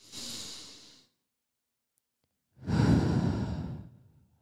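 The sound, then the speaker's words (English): A person takes a deep breath: a softer breath, then a pause, then a louder, longer breathy exhale like a sigh, with no talking. “Okay, hold on. Let me take a breath.”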